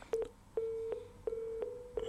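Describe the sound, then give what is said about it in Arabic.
Faint, steady telephone line tone heard after a call drops on a call-in line, broken at intervals by several sharp clicks. “الظاهر انقطع الاتصال بعمر، لو كان في الاستماع ممكن يعيد الاتصال بنا”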